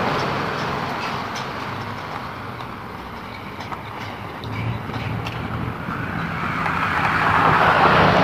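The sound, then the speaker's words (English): A steady rumble of road traffic, including pickup trucks, passes on a busy Saturday morning, a broad wash of engine and tyre noise that swells louder toward the end. “a lot of traffic this morning. There's a lot of people moving around. It's Saturday morning, so yeah, a lot of people moving about.”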